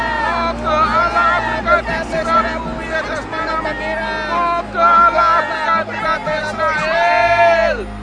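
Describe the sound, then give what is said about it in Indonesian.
A crowd cheers and shouts in a dramatized Bible story of Jesus entering Jerusalem, where people waved palm branches. Several voices ring out in overlapping shouts and rising calls over a busy background of chatter. “Aja agia sorak!”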